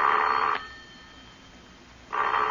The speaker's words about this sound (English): Because the four numbers I just dialed make your own phone ring.